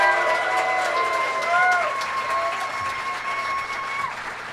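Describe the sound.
An audience in San Diego applauds as three guests are welcomed onto a live show. The clapping is dense and steady throughout, with some crowd noise mixed in.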